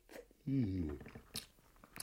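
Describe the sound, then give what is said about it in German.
Someone bites into a roast bird and chews, making quiet crunching and smacking sounds. A short voiced murmur sounds along with the bite. “In dieses zweite Vogel da reinbeißen.”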